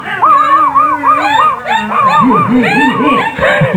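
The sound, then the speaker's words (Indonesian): A dog howls and yelps loudly, its voice wavering up and down in long, sliding cries broken by short, higher yips. “Eta anjing rage kiwar. Aduh, cilaka naon teh rage gitu.”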